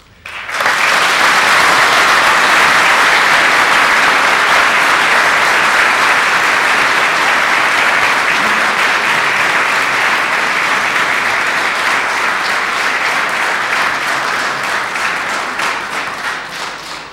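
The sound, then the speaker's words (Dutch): Loud, dense audience applause congratulating someone on an anniversary, a sustained roar of many hands clapping that keeps a steady level for most of its length and eases off slightly near the end. “wij zeggen wel eens, wij applaudisseren hier niet zo vaak, maar in dit geval was het terecht.”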